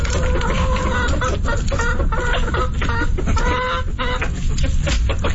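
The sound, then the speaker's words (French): Chickens clucking in a henhouse, a dense, continuous chorus of overlapping clucks and squawks that stays loud and busy throughout with no clear pauses. “On dirait que c'est un poulailler hier.”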